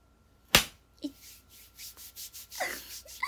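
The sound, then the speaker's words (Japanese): A sharp, crisp slap on a thigh cracks out once, loud and sudden, followed by a few quieter soft knocks and rustling movements. “ちょっと太もも叩きたい太もも叩いてみますね。”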